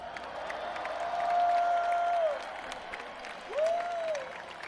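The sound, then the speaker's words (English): Concert crowd applauding and cheering for the tour crew on the last night of the tour, a steady wash of clapping that swells twice with cheers and sustained whistle-like tones. “Let's hear it for the best crew on the planet.”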